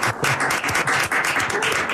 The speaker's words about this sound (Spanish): Un aplauso para Alicante.